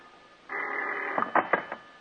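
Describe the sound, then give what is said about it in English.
An old telephone bell rings in the darkness at two in the morning: one sustained, buzzy ring is followed by a few short rattling bursts, all fairly faint. “It seems like hours later when the phone bell cuts through the darkness like a knife.”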